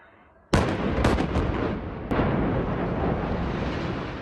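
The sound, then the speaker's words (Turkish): Controlled demolition blast bringing down a heavily damaged 13-storey building in Malatya with 135 kilograms of explosives: a sudden loud boom, then a sustained roaring rumble of collapse with a few crackling bursts and another sharp crack. “Bostanbaşı mahallesinde ağır hasarlı 13 katlı bir bina patlatılarak yıkıldı.”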